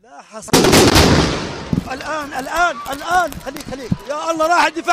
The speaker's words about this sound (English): As emergency personnel, civilians, and journalists gathered at the scene, there was a second strike, captured live on Al Ghad TV.